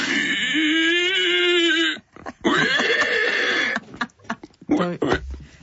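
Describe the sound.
A person imitates a wild boar with the voice. A drawn-out, wavering squeal comes first, followed by a series of short, choppy grunts and snorts of uneven loudness.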